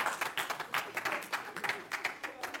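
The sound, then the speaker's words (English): Applause from a lecture audience after a joke about dolphin intelligence, heard as a loose run of clapping bursts that rise and fall unevenly at a moderate level, with voices mixed in. “no one ever applauded that joke before.”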